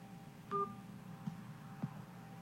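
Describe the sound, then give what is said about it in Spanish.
A single short telephone keypad beep sounds over faint line hiss while a caller uses an automated phone menu for a state security department, followed by a couple of faint clicks. “Si conoce el número de extensión, márquelo ahora.”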